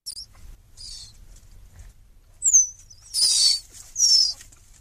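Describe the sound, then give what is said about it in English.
High-pitched chirps from mountain lion kittens calling to their mother: a few short, thin chirps spaced apart, the later ones louder and fuller, with nothing else heard. “kittens will chirp and communicate with their mom that way. Sikich declined to give us an example of what that chirping sounds like, but according to the Santa Monica Mountains YouTube site, it sounds like this.”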